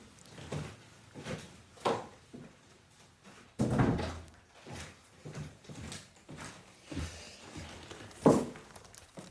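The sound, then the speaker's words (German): A window is shut because rain is coming in, heard as several dull thumps and knocks spread unevenly, with heavier thuds near the middle and toward the end, over a faint hiss. “Ich muss mal ganz schnell mein Fenster zumachen, weil es reinregnet.”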